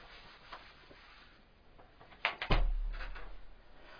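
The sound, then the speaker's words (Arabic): A car door opens with a short clunk followed by a louder dull thud. Faint background noise comes before it, and the sound fades into a low rumble afterward. “الباب، افتح الباب السيارة.”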